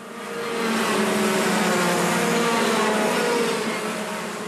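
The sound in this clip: Go-kart engines racing around a track at Watergrass Hill, Cork, Ireland: a dense, loud buzzing roar that swells in and stays steady, then eases slightly toward the end.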